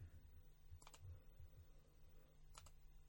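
Computer mouse clicks as someone selects phone lines on a call-in system: two short clusters of crisp clicks, faint over a steady low hum.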